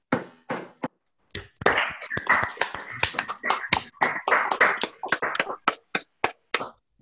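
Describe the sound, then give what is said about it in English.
Scattered hand claps from a few people applauding after a talk at an online seminar: irregular, sharp claps rather than a dense ovation, continuing for several seconds. “All right, thank you for the talk, me too. Let's all give him a hand.”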